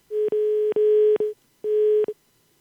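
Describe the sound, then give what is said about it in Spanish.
A telephone line tone after a dropped call sounds as a steady mid-pitched hum. It comes in two stretches split by a short silence, each broken by faint clicks, then stops abruptly. “¿Se cayó la llamada? Sí, señor. Sí, parece que se cayó.”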